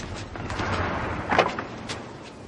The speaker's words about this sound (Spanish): Touriño abre la puerta y Villambrosa y la joven salen del coche.